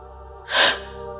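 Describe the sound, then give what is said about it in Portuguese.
A single deep breath is drawn in through an open mouth into the belly during a breathwork exercise, a short, breathy rush of air that swells and fades, heard alone. “A sua primeira inspiração é para a barriga, assim.”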